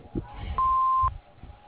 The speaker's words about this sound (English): Hello, we are not available now. Please leave your name and phone number after the beep.